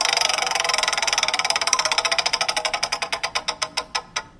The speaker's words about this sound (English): so how we do this, man, is we spin our wheel to get you a category. So let's spin the wheel.